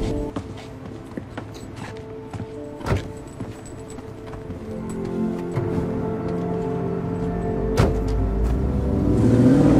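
A car driving off: a few scattered knocks and a sharp thud come first, then the engine builds steadily, growing louder and climbing in pitch as the vehicle pulls away at the end.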